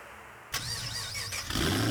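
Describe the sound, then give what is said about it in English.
A car engine cranks and catches with a sudden start, then runs in a whining mid-pitched rumble before revving up louder near the end. “Rev your engines.”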